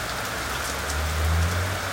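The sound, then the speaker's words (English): Rain falling on leaves: a steady, soft hiss of dense pattering drops with no voices, and a faint low rumble swelling briefly midway. “It's the imagining of rain falling on leaves”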